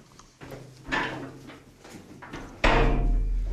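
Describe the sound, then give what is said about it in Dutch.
A heavy metal door in a bunker with thick reinforced concrete walls: two dull impacts, the second much louder and followed by a sustained low rumble. “Nou, treden naar beneden. En dan zien we de eerste grote, zware metalen deur.”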